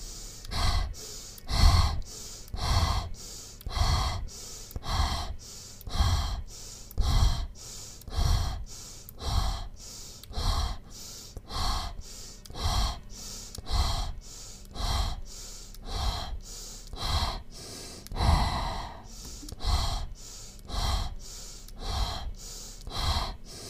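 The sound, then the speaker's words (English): Fast deep breathing in a breathing exercise: forceful inhales and exhales alternate in a steady, rapid rhythm for many cycles, with soft whooshing air and no talking. “Take a deep breath in and release.”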